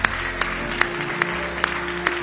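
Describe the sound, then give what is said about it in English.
An audience claps in praise during a church service, keeping a steady rhythmic beat over a sustained background tone. “Give the Lord a good hand clap of praise tonight.”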